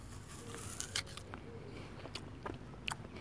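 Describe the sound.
Someone bites into a sour apple just picked from a tree, giving a few crisp crunching snaps and soft chewing over a quiet background hiss.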